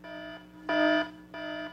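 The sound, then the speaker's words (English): An electronic alarm sound effect plays as a buzzing, harmonic-rich tone in three pulses over a faint steady hum. The middle pulse is louder and brighter than the other two. “Rome will stop playing that stupid adultery alarm”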